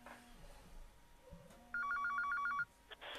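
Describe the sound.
Incoming phone call ringing: a short burst of rapid electronic trilling pulses, bright and steady, standing out clearly over faint background noise before stopping abruptly.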